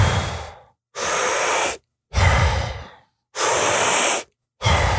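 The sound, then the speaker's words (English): Deep breaths drawn in and let out during a guided breathing exercise, with steady, even inhales alternating with exhales that fade away. The breaths come in a regular rhythm with short silent pauses between them, and no one talks. “So deep in and let it go.”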